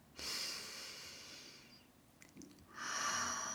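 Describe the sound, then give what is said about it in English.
A deep breath: a long, airy inhale held steady for over a second, a short pause, then a strong breathy exhale, heard alone. “Take a deep breath.”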